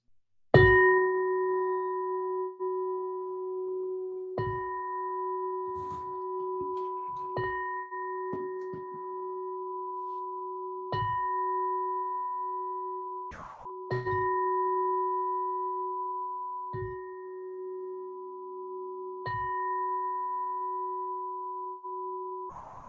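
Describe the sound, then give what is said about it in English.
A chakra singing bowl rings with a sustained, pure humming tone and rich overtones. It is struck again and again at irregular intervals, and each soft strike renews the steady resonance that lingers throughout. “The sound that you're hearing is from a chakra bowl that resonates with every chakra.”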